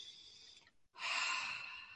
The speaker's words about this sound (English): I sometimes will just say, I'll just exaggerate the breath.